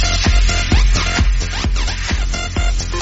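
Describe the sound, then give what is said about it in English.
Electronic dance beat triggered from a button, driven by a steady thumping kick drum under busy synth layers. It plays loud and continuous with no voices. “Just hit a button, Marty. Give me a beat.”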